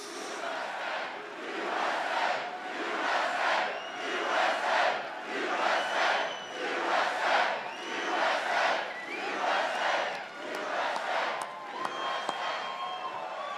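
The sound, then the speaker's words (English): Crowd at a political rally cheering and chanting in a steady, rhythmic swell that rises and falls roughly once a second, with many voices shouting together, sustained throughout. “By the way, I wish the cameras would get this crowd. This crowd is incredible.”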